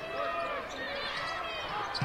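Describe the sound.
A basketball is dribbled during a live game, with steady bounces under continuous crowd noise and commentary.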